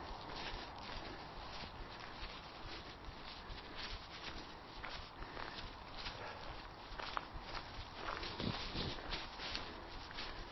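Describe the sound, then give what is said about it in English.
Slow footsteps walking back down a hill outdoors on a spring day, a faint, steady run of many soft steps against a noisy background. “Mine gets a little bit steeper towards the top. It's a bit harder. Slow walk back.”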